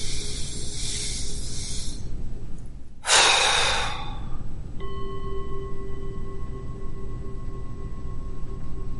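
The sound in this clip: One sharp, forceful exhale during a breathing exercise, a loud burst of breath noise about a second long over a steady background hiss, followed by faint sustained tones.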